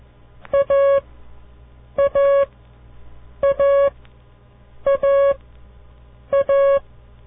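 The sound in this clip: Signal tones coding the letter A: five repetitions of a short beep followed at once by a longer beep, a mid-pitched, slightly buzzy tone over a low steady hum.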